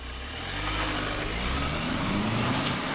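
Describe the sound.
Car engine and road noise from a vehicle on a long drive, a loud, steady rumbling hum with low engine tones that holds at an even level throughout, no voices.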